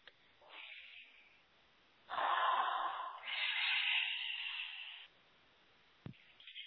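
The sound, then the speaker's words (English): A deep breath taken in a pause between talk: a long airy rush of breath, steady and fairly loud for about three seconds, with softer breathing around it and no voices. “Okay. Deep breath.”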